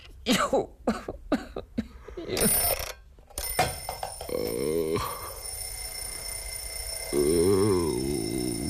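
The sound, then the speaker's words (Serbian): An alarm clock rings steadily and continuously from about a third of the way in, after a run of several coughs and throat-clearing sounds. Low vocal sounds surface twice over the ringing. “Prokleti budilnik.”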